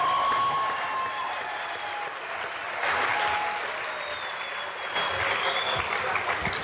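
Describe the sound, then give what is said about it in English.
Audience applause for a speaker at a gathering: dense, sustained clapping from many hands that stays full and even from start to finish, with slight swells in loudness. “Give her another hand.”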